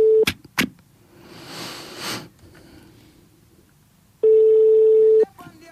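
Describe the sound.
Telephone line tone while a call is placed: a brief steady beep at the start, a quiet stretch with faint rustling, then one long steady mid-pitched tone lasting about a second before it cuts off.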